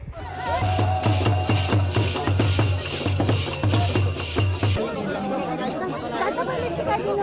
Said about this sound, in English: next on Sports Hour, the sounds of celebration in Kathmandu.